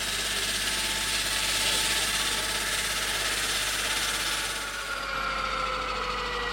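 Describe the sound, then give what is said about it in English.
Enormous circular diamond saws spin while cutting through bedrock, making a dense, steady mechanical roar with a low hum underneath. It holds almost unchanged throughout, easing slightly near the end, with no voices. “the enormous circular diamond saws began to spin.”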